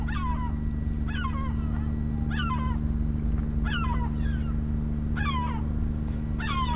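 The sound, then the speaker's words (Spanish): Seagull calls in a sound effect: six squawking bursts, each sliding downward in pitch, repeat at a steady pace over a constant low hum. “¿Suenan gaviotas?”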